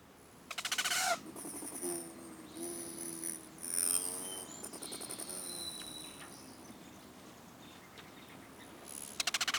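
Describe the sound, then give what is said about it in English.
Rufous hummingbird giving thin, high chattering chirps, with faint rapid buzzing bursts from its wings at the start and at the end; quiet overall, with no voices. “today I learned hummingbirds make a noise. I did not know they make any kind of call at all, but here is the Rufus hummingbird.”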